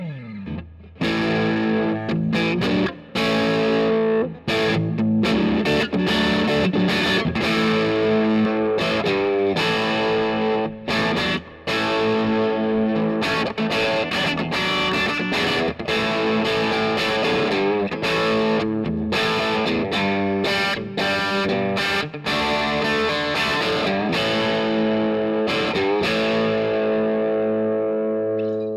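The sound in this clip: Electric guitar played on the neck pickup through a Vox amp, with a distorted, effects-laden tone: a continuous run of strummed chords and picked notes lasting nearly half a minute, steady and moderately loud, with no talk.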